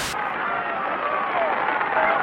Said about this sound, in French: Ces applaudissements se suffisent à eux-mêmes, et c'est au milieu de cette folle ambiance que je vais vous laisser regarder les derniers mètres d'ascension de Raymond Poulidor.